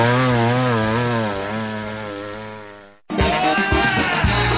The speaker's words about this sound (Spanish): Agrifor, el que más sabe de motosierras en Talca.